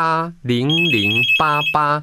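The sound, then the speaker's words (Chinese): A telephone ringtone signals an incoming live call to a phone-in show, a high warbling ring sounding briefly beneath a loud, tuneful voice. “来，现场电话”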